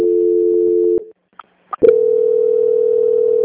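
A telephone call transfer tone: a loud, steady low tone for about a second cuts off into a few clicks and brief beeps, then a second steady, slightly higher tone runs to the end.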